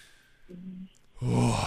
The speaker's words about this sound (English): Just take a nice deep breath for me.